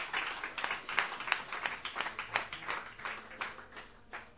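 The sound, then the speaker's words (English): Audience applause at a Sunday night open mic as a guitarist playing original music is welcomed to the stage. The clapping is sparse and moderate, with individual claps distinct, and it eases off slightly near the end. “Please put your hands together. Welcome him to our stage.”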